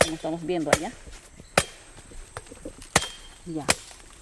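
Brazil nut pods being cracked open by someone seated on the ground in Peru. The hard, woody shells take four sharp, loud strikes at irregular intervals, with quiet outdoor background noise between the blows.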